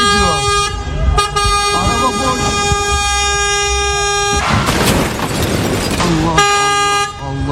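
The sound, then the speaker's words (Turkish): Car horns blare as a warning while a driverless van rolls downhill out of control. Long sustained blasts are broken by short gaps, and people shout over them in the middle. “Çevredekiler bağırarak ve korna çalarak vatandaşları uyardı.”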